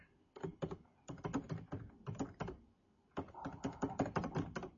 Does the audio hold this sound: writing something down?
yes